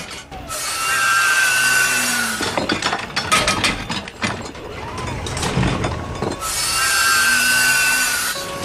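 A buzzsaw cuts in two steady, whining bursts, one at the start and one at the end. Between them comes a stretch of irregular clattering knocks and bangs.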